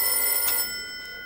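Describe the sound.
A telephone rings once in a brief, bright electronic tone that cuts off partway through, leaving a quiet hiss.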